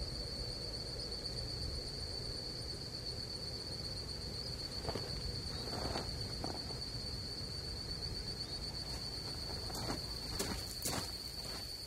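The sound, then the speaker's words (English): An insect chorus at sunset forms a steady, high-pitched drone that holds one shrill tone without a break. A faint, constant low background lies beneath it, and a few brief clicks are scattered through. “One of the most remarkable things for me at sunset was the insect chorus, insects that I'd never heard before.”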